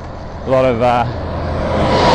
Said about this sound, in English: Fair bit of traffic on the road.